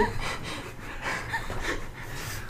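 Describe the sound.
A voice imitates a breathing sound with faint, airy, breathy exhalations and soft snorting puffs that run in a loose rhythm, with no clear words.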